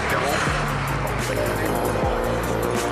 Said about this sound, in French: L'ambiance de la course de côte, c'est ça. Des bolides qui passent à fond la caisse juste au bord